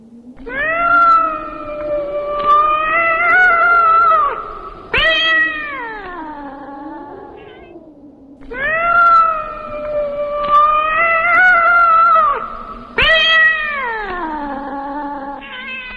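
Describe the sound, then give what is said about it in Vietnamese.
A lame, trembling cat wails desperately before a stone stele at night. Its long, loud, drawn-out yowls waver and sag in pitch and repeat as several sustained, anguished cries, with no other sounds. “Con mèo không ngớt kêu gào tuyệt vọng, tiếng kêu ướm máu như đang khổ sở cầu xin cái bia kia tha mạng.”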